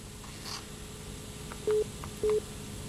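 Two short telephone keypad tones are pressed one after the other to enter a number at a call prompt, each a brief clean beep over steady line hiss.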